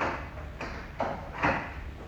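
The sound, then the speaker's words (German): Faint clunks and clicks of a shop door being locked, a few soft knocks spaced out over about two seconds against a low background rumble. “Augenblick, ich will nur mal den Laden abschließen.”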